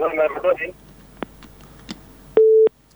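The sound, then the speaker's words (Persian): A telephone call cuts off: a voice speaks briefly, a few faint clicks follow, and then a single flat disconnect beep sounds loudly before the line goes silent. “تماس ما قطع شد.”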